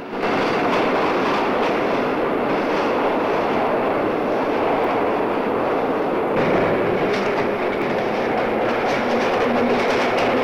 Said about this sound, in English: As the train speeds away